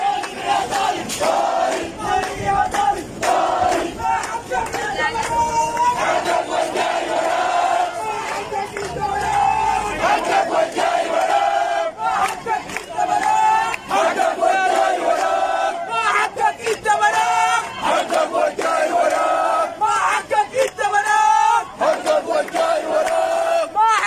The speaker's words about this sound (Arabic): وردد المشاركون في المواكب هتافات تندد بتردي الأوضاع المعيشية والبيئية والأمنية في الداخليات.